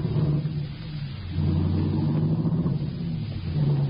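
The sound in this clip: A car's engine rumbles steadily as it drives, a low, continuous drone that grows slightly louder partway through with no talking.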